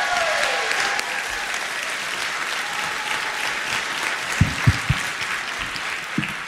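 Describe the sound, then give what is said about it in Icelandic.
Audience applause welcoming a performer to the stage: dense, steady clapping that holds from start to finish, with a few low thumps standing out near the end and no voices. “og takk ég vel á móti honum, gefum honum gott klapp.”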